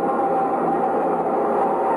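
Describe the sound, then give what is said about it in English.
Subway trains rumble through an underground station in a loud, continuous, steady roar with a low-to-mid tone and no distinct rhythm. No voices are heard. “And between the subway trains and the soft clutchings of the mob, a man in a brown ready-made suit shouldered his way.”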